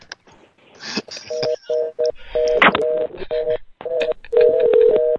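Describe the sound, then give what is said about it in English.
A telephone ringing, heard as a series of short electronic tone bursts in an uneven rhythm, interspersed with brief noisy clatters. “the phone's ringing in the background”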